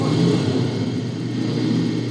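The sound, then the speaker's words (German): A motorcycle speeding off gives a dense, steady engine roar with heavy low rumble that holds at an even loudness throughout, with no voices. “Er steigt auf sein Motorrad und schießt davon.”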